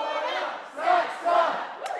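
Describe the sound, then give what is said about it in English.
A crowd cheers and shouts a rousing welcome for freshmen at Georgetown University orientation, rising in two loud surges of massed voices. “A rousing welcome for freshmen.”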